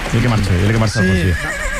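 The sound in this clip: A horse neighs loudly in two wavering, harmonic bursts with a brief break between them.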